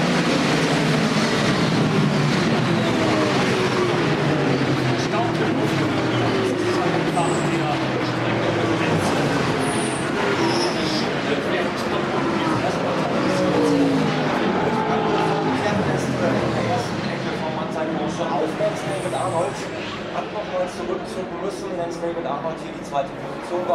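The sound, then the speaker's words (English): Racing cars' engines roar as the field arrives on the formation lap, a dense, continuous rumble with shifting engine tones, a commentator talking over it. “Well, that's them all left the grid now for the formation lap. And I imagine that the front runners shouldn't be too far away. Here they come.”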